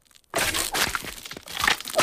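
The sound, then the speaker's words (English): Ice cracks around an acorn being twisted into frozen ground. Silence gives way at about a third of a second to a sudden burst of brittle crackling, then dense crunching cracks continue with surging loudness to the end. “It moves into the ground and the ice around it starts to crack.”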